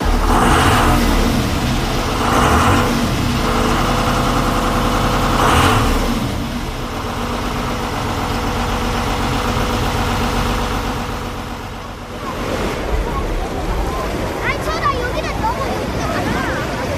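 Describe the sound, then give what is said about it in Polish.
A motorboat engine idling at a water rescue station in Giżycko: a steady, loud, rumbling drone with a mechanical hum that holds throughout, dipping briefly before settling back into its low churn. “dyżur na stacji w Giżycku zaczynamy od tego, że przychodzimy i zaczynamy od sprawdzenia stanu technicznego naszych motorówek.”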